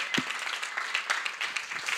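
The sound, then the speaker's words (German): Applause from a church audience clapping for its teachers and educators: dense, continuous clapping by many hands, steady and fairly loud throughout, with no clear voices. “ihr könnt klatschen für sie, wirklich.”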